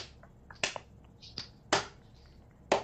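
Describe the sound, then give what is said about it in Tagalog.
Hands clapping at a show, faint and sparse: a few sharp, crisp claps at irregular intervals over a quiet background. “Clap harder. I want to hear it.”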